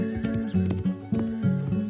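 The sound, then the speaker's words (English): Horse hooves clip-clop in a steady rhythm as a rider rides away, with a horse whinnying over the hoofbeats at a fairly loud, even level throughout. “And then she rode away into the wide world.”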